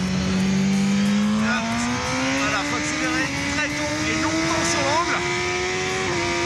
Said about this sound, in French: Alors c'est pas un kiff énorme ça, de rouler sur une moto officielle, sur le circuit des 24 heures du Mans.